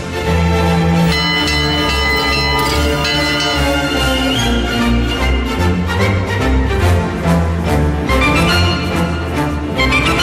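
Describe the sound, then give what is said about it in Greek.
Church bells ring out to celebrate joyful news in a loud, continuous, dense peal of overlapping metallic tones that fills the whole clip with no talking. “Χαρμόσυνα νέα. Οι καμπάνες να βαράνε.”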